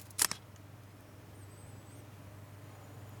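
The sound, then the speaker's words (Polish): A single sharp camera-shutter click from the KNFB Reader app taking a photo on an Android phone, brief and alone, followed by a quiet, steady low hum. “Spróbuję w takim razie, nie zmieniając ułożenia ręki, zrobić zdjęcie. KNFB Radar. KNFB Readerem. Wykonaj zdjęcie. Rejestruj. Wykonaj zdjęcie.”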